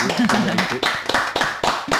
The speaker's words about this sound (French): Tout le studio numéro 1 de Radio Cause Commune applaudit.